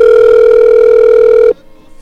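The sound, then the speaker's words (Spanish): A telephone call ringing through: a single loud, steady tone that holds for about one and a half seconds, then cuts off abruptly. “O entrando la llamada”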